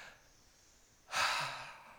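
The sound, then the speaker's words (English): A deep breath during a church sermon: faint background hiss, then a single loud, airy breath that swells and slowly fades. “Just take a deep breath right now.”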